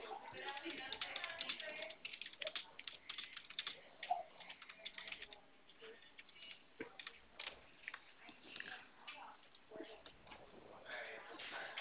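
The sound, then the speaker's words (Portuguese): Rapid clicking of keys as a WhatsApp message is typed, a dense run of light, uneven taps that continues throughout with soft talk alongside. “Tô escrevendo aí no seu WhatsApp.”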